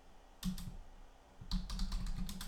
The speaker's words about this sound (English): I have to type these words.